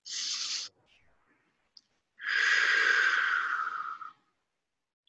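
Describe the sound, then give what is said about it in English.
Deep breathing during a guided meditation exercise: a short airy inhale through the nose, a pause, then a long, steady exhale through the mouth lasting about two seconds, soft and unaccompanied. “Another big breath in through the nose and out through the mouth.”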